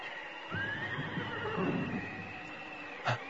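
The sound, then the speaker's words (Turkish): A white horse neighs in a radio drama sound effect set during a storm: one long, shrill whinny with wavering pitch over a low noisy background, followed near the end by a short knock. “Bir at sesi mi duydum?”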